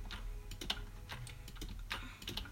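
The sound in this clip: Faint, quick mouse clicks while farming pumpkins in a video game tap in an irregular, rapid patter over a steady low hum.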